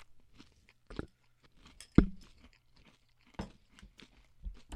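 Crunchy chewing of food eaten with milk, heard as soft, irregular crunches with one sharp, louder bite near the middle, against an otherwise quiet background.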